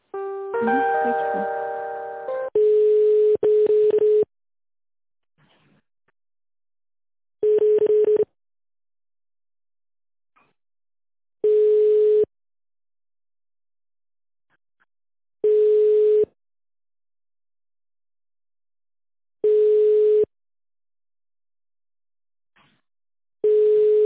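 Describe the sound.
Telephone line tones while a call is transferred: a brief run of stepped electronic beeps, then a steady tone repeating in short bursts at a regular interval of about four seconds, with silence between them.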